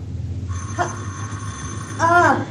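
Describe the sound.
An alarm clock ringing: a bright, metallic bell tone that sets in and rings steadily, with louder jangling bursts over a low background hum.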